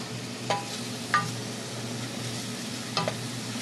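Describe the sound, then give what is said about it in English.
Onions sauté on a stove for a Potawatomi soup, giving a steady, faint sizzle over a low hum, with three light clicks of stirring spaced apart. “On the stove, she sautés onions for the soup.”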